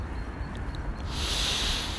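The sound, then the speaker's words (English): A deep, intentional breath at the start of a practice session: a long, hissy rush of air that grows louder and brighter in its second half, with no talking. “starting our practice, our day, with a deep intentional breath.”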